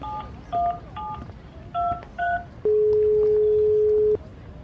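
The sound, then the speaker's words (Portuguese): Telephone keypad dialing tones: five short beeps at varied pitches in an uneven rhythm, then one long, steady, clear tone that holds for over a second before stopping. “Eu vou ligar agora para outro brasileiro, o Rodrigo”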